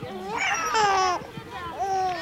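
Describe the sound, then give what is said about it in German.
A baby cries and fusses in a few wavering, high-pitched wails that bend up and down in pitch, with short breaks between the cries. “Nicht weinen, Baby, ja? Nicht weinen.”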